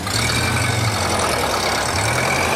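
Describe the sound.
A hand-cranked engine runs with a steady, loud, low rumbling drone that holds constant throughout, with no distinct separate events or voices.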